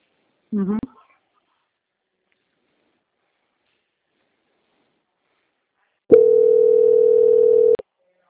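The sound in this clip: A steady telephone line tone plays while a call to a bank is transferred, one clean mid-pitched beep held for under two seconds after a long silence. A brief voice fragment is heard near the start.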